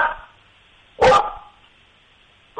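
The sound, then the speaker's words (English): A Portuguese water dog barks, giving one loud, sharp bark in the middle, with clipped barks at the very start and end, separated by quiet. “Tractor is a Portuguese water dog. Yeah. He's very talkative tonight. Yeah. Let's hear it. Get Tractor to go nuts. Tractor, the pizza?”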